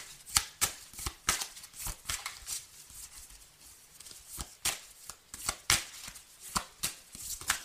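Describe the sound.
Playing cards are dealt one after another, giving many sharp flicks and snaps in an uneven, quick rhythm over a faint background. No voices are heard.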